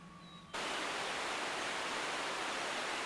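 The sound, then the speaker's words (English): A fast-flowing river rushes with a dense, steady hiss of water that swells in abruptly after a brief quieter opening and then holds at an even, loud level to the end. “Now the two men are walking beside a fast-flowing river.”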